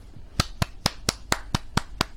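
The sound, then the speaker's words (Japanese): An audience claps eight sharp, evenly spaced times in a steady rhythm. Each clap is crisp and fairly loud, with no voices in between. “拍手ありがとうございます”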